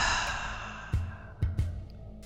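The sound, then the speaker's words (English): Guided breathing in through the nose and out through the mouth: a long soft airy exhale that slowly fades, followed by a few faint clicks. “Begin when you're ready, circulating that breath in through the nose, out through the mouth.”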